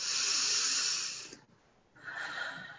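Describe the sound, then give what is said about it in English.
A slow breath drawn in and let out: a long, airy inhale, then a short pause and a softer, shorter exhale, with no talking. “Let me take a breath and let it go.”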